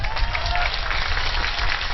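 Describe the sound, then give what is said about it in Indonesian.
Audience clapping makes a dense, even clatter that continues at a steady level for about two seconds. “Urung-urung kok tepuk tangan.”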